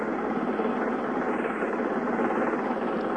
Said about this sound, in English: The helicopter now directly over the flight deck and settling slowly.